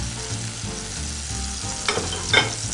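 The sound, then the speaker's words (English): Sage leaves fry in hot oil with a steady, bright sizzle, and a couple of louder crackles pop out near the end. “I'm gonna go ahead and fry just a little bit more sage. So just keep cooking down here in this oil.”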